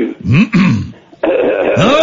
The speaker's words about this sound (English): Cleared my throat.